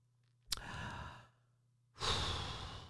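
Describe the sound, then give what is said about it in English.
Deep breathing during a stress-relief moment: two long, airy breaths separated by a quiet pause. Each breath swells quickly and then fades slowly, with no talking. “Everyone just breathe for a minute.”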